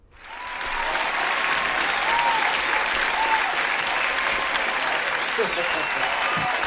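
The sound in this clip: Applause welcoming a guest: a full, steady round of clapping that builds quickly in the first moment and then holds at an even, loud level for several seconds.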